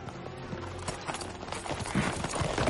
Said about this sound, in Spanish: Continúan su marcha al galope por las calles de Alejandría.